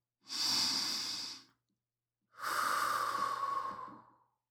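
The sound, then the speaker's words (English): Deep breathing in and out: two long, airy breaths separated by a short pause, each swelling and fading smoothly, with no talking. “Take a few minutes to relax deeply by inhaling in and exhaling out a few times.”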